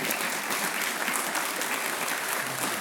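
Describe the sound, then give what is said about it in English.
An audience at a church gathering applauds to welcome a speaker, a steady, even clapping that fills the whole stretch with no voices over it. “So would you help me to put our hands together to welcome Dan?”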